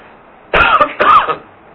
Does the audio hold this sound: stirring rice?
no